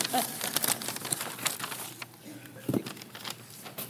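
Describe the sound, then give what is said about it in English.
Faint, intermittent crinkling of packaging as an item is carefully unwrapped from its box, soft rustles and crackles spread unevenly over a few seconds. “I'm taking much more care in unwrapping this than I normally do.”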